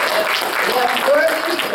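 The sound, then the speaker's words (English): Congregation clapping hands in praise to God, a short burst of dense clapping with voices mixed in. “Let's give God a hand clap.”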